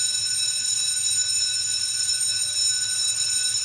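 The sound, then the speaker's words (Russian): An electric school bell rings for the start of class, giving a continuous, bright metallic ringing that holds at an even loudness throughout, with no voices. “Звонок на урок.”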